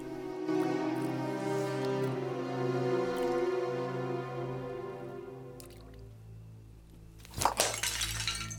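An earthenware cup is thrown and breaks: a sharp crash near the end, followed by a few smaller clinking fragments, cuts through long sustained musical tones.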